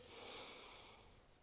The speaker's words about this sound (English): And now deeply inhale.